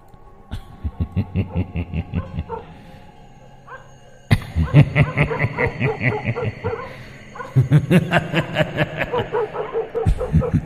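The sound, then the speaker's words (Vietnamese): Dogs barking in a village at night: a rapid, rhythmic run of many barks, moderately loud at first, then louder and denser after a sudden jump partway through. “Ở đầu xóm tiếng chó cắn ma lại nhấm nhặng vang lên lẫn trong cái tiếng cười”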